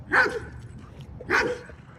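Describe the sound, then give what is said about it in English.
A dog barks twice while reacting to other barking dogs. The two sharp, mid-pitched barks come about a second apart over a low background rumble. “It reacts to the other barking dogs.”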